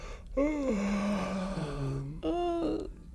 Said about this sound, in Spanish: Pero antes de eso vamos a hacer un amago de bostezo